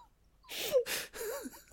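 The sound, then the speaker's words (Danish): A sudden human sneeze, heard as a few harsh, breathy bursts with voiced tones, then a sharp, loud burst at the end. “Undskyld. Jeg ved ikke lige, hvad der skete der. Jeg nøs meget pludseligt.”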